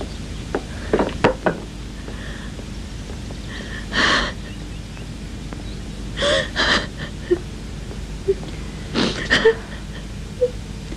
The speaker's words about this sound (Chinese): 别哭了，怎么会呢？